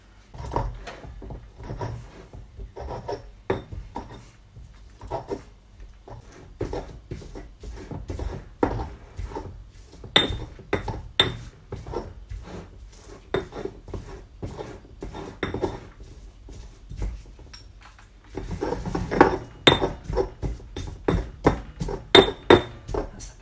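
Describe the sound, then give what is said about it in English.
A pestle knocks and grinds in a mortar, crushing a softened orange for an orange pudding: many irregular hard clinks and taps. A brief lull near the end precedes a louder, busier run of strikes. “I'm just going to use the pestle and mortar to grind it down”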